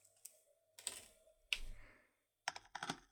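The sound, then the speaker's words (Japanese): A knife cuts through sand with a few soft, crisp, crunchy scraping bursts. The bursts are separated by short pauses and are heard alone. “砂を切るのも。なかなか楽しいものですね。”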